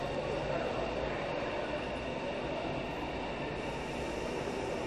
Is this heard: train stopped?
yes